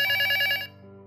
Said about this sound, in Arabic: كان خط التليفون الأرضي.